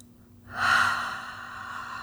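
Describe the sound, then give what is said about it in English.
A single deep breath is drawn in during a calming exercise for anxiety, a soft airy inhale that swells quickly and then slowly fades, heard alone and fairly faint. “Deep breath.”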